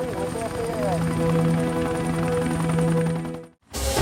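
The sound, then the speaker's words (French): Helicopter rotor drone from an FBI helicopter searching a stretch of highway at night in Nevada, steady and loud beneath a narrating voice, then cutting out briefly near the end. “Le pilote d'un hélicoptère du FBI scrutait un segment de 25 km de l'autoroute 50 à la recherche d'un signal.”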